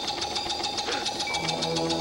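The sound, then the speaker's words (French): Whirring of an unplugged electric fan spinning in a horror video game, a steady mechanical hum with a fast, regular pulsing beat running through the whole stretch. “Et voilà, là, on voit le ventilateur qui tourne, même s'il est déplogué.”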